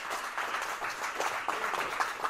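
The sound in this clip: An audience applauds a panel, a steady, moderately loud wash of many hands clapping that holds throughout without a break.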